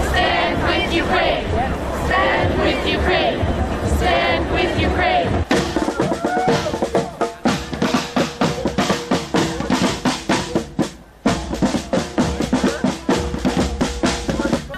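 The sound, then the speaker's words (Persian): Crowd noise from Ukrainian Canadians rallying in Toronto against the Russian military attack: dense, loud babble that turns into rhythmic, pulsing chants, with a voice talking over the opening part. “هزاران نفر از ساکنین تورنتو و عمدتاً اوکراینی کانادایی ها در اعتراض به حمله نظامی روسیه و اعلام همبستگی با اوکراین دست به تجمع اعتراضی زدند.”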